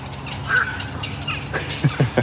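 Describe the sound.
Black-crowned night herons call at a breeding colony with harsh, low squawks. A few short, croaking calls stand out toward the end over a faint, steady background.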